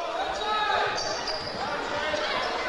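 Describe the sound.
Basketball dribbled on a court during a game, steady bounces blending into crowd noise while a commentator talks over the action.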